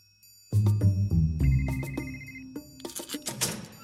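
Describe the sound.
An electronic phone rings in a video game set in a station. Repeated bright tonal bursts sound over a low, humming background, with one sustained high ringing tone in the middle.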